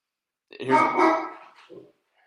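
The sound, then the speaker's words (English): A pet dog lets out one drawn-out, fairly loud bark or yowl, followed by a short, softer sound. Silence comes before and after. “for those of you listening, that is my dog.”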